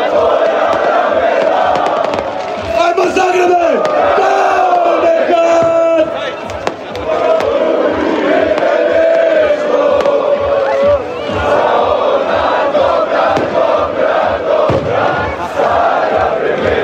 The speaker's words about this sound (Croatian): Slavlje se s Travnjaka preselilo na parking ispred zapadne tribine stadiona, gdje su igrači i navijači nastavili proslavu završetka još jedne uspješne sezone.